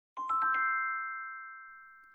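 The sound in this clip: A home doorbell system (Troy brand) chimes ding-dong: a quick run of struck bell notes, then a bright sustained chord that rings and slowly fades over about two seconds, with nothing else heard.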